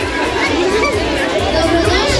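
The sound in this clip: A large crowd of children gathered outside a primary school fills the air with loud, dense, overlapping chatter and shouting of young voices, steady and unbroken throughout.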